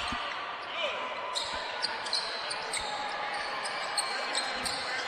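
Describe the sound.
Basketball dribbling on the court during a high school game, LA vs. Central Tuscaloosa, at KSA in Orlando: faint, quick bounces under steady crowd noise while a commentator talks.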